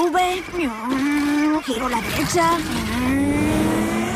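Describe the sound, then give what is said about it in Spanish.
A BMW car turning right, its engine revving loudly with pitch sweeping up and down and tyres squealing, the sound continuous over several seconds. “Va un BMW. Giro a la derecha.”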